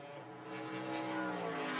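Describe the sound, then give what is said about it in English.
Race car engines droning as the cars stream out of pit lane for a free practice session at Mid-Ohio. The harmonic engine whine is steady and grows louder partway through. “And the cars stream out. Shea Adam down in pit lane. Everyone's going out together”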